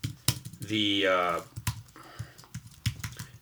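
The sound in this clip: Typing on a computer keyboard: a few sharp, separate key taps spaced unevenly, with a short stretch of voice between them.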